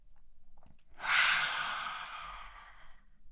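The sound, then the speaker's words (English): One long, deep human breath taken during a guided breathing moment: a loud, airy rush swells suddenly and then fades gradually over about two seconds, with no talk over it. “I remember to remember every day to take the deepest breath I've taken all day. Let's do it together.”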